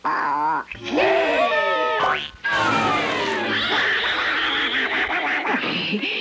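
Cartoon duck quacking in a 1952 animated short: loud, raspy, sputtering quacks come in rapid bursts with brief breaks between them. The squawks are nasal and rich in overtones and fill the whole clip.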